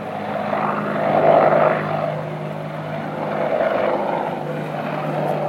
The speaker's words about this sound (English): It's an Apache. That famous silhouette.